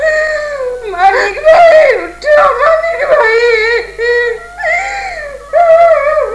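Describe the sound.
A person cries in grief after a death, loud, high, quavering wails and sobs that rise and fall in pitch, coming in several long bursts with short breaks between.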